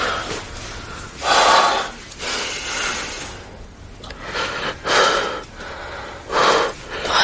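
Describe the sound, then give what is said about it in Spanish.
A man breathing deeply and nervously: several heavy, breathy inhales and exhales in a slow, uneven rhythm, a few swelling louder than the rest, with no speech. “Él se muestra nervioso y respira profundamente.”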